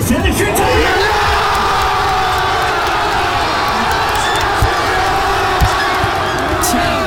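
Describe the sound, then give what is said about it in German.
A loud crowd roars and cheers as a goal is scored for 2:1 at a large World Cup public viewing in Hannover, Lower Saxony, a dense, sustained wall of voices lasting the whole clip. “Wir haben das zwischenzeitliche 2:1 geschossen. Das hat sich beim größten Public Viewing in Niedersachsen in Hannover so angehört.”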